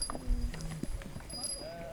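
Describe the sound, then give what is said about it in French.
A flock of ewes and lambs, including a small brown lamb, in a pasture enclosed by electric netting; a few faint, short bleats and low animal calls occur among soft rustling. “Là, il y a le petit agneau marron, là.”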